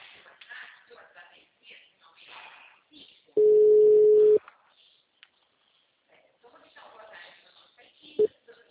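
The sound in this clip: A single steady, mid-pitched telephone tone lasting about a second as a call is placed, with people talking before and after it and a brief beep near the end.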